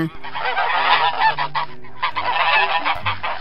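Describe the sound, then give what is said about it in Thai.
A flock of geese being driven through a gate honks loudly and without pause, the overlapping nasal calls forming a dense, continuous clamor for the whole stretch. “เมื่อเธอและคอนราดกำลังไล่ฝูงห่านผ่านประตู”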